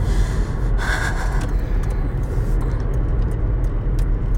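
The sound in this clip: A car being driven, heard as a steady, loud, low road and engine rumble that stays constant throughout with no talk.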